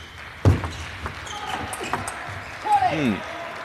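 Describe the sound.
Table tennis ball struck on a serve during a match, a let replayed at 6-5: one sharp, crisp tap, then a few lighter clicks, followed by a brief voice near the end.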